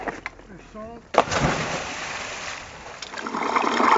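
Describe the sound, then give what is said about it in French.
Divers enter the Mediterranean Sea above a Posidonia seagrass meadow: a brief voice, then a sudden splash that turns into a sustained rushing, bubbling wash of water that swells again toward the end. “Ça y est, on s'est mis dans l'eau. Là, on se trouve à une douzaine de mètres de profondeur.”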